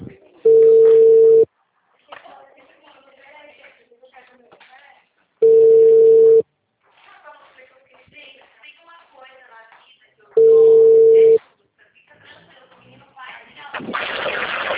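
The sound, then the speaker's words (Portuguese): Telephone ringback tone on an outgoing call: three long, steady, mid-pitched beeps, each about a second, evenly spaced several seconds apart, with muffled voices and background noise in the gaps. “Fazer uma ligação.”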